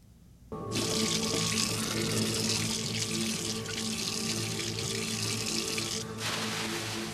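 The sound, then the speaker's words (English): A tap runs while a man washes his hands in Muslim ritual cleansing before prayer. The water starts abruptly after a moment of quiet and becomes a steady, even rush that carries on to the end, with no voices. “he washes his hands in the way Muslims do before prayer, ritual cleansing, and he kneels and he prays. We have that sound.”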